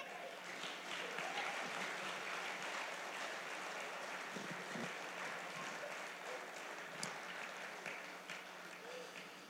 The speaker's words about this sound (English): All right, let's give them a round of applause.